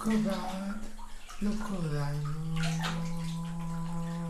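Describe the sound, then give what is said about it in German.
Cold water pumping from a hose onto a body in a bathroom, a steady rushing, splashing wash that runs throughout, with a voice-like tonal sound over it. “Ein Schlauch pumpt kaltes Wasser auf ihn.”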